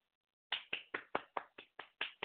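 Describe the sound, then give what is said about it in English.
Crisp hand claps from one person start after half a second of silence and continue as a steady, evenly spaced series of sharp, separate slaps to the end. “I'm going to clap for you.”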